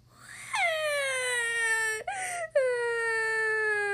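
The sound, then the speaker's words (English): A storyteller's voice imitates a child bawling: a long, loud wail that falls in pitch, a brief choked break, then another sustained wail. “Well, at this point, she had no choice. Trixie bawled.”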